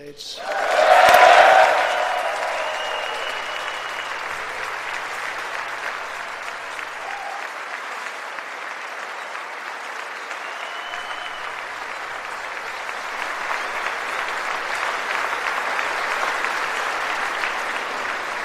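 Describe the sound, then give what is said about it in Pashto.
Members of Congress applauding President Trump: a loud burst of clapping at the start settles into long, sustained applause that swells slightly again toward the end. “د کانګرس په کانګرس کې جمهور رئیس ټرمپ کوم پلویان دي هغوی چکچکې کوي”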